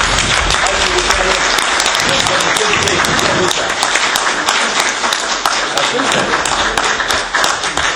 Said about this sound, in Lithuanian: Tai vat, paplokim, gerbiamą Vytautai.